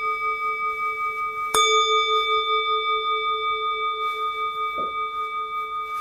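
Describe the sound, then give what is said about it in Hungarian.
A singing bowl struck once with a coated wooden mallet gives a bright, high metallic tone. Steady overtones ring on for several seconds and fade slowly. “Na nézzük akkor a hangtálakat.”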